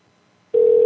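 An outgoing phone call's ringing tone begins abruptly after near silence: a single loud, steady electronic tone holds unbroken to the end.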